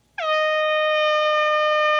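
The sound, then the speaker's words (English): A single loud air horn blast starts abruptly and holds a steady, brassy, harmonic-rich tone to the end, with nothing else heard. “What's an air horn? Air horn, yeah.”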